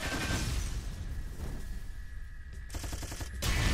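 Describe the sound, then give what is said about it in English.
Machine-gun fire in a video game, a loud continuous stream of rapid shots that runs the whole clip, with the rattle of individual rounds easiest to make out near the end. “So I'm trying to do as much of this as I can with the machine gun.”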